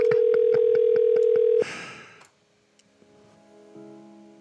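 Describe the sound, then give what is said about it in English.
An unanswered outgoing phone call that gets forwarded to voicemail. A steady held tone with regular clicking ticks sounds for over a second, then cuts off in a short burst of noise and falls to near silence with a few faint tones. “Keep calling. Somebody's got to answer.”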